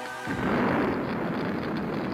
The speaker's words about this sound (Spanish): Se produjo una segunda explosión en la estufa de la escuelita.